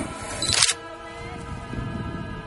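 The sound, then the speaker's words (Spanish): A camera shutter fires once at the top of a bell tower, a single sharp burst of clicking that stands out briefly over a low steady background hum. “va haciendo fotos, me parece muy bien.”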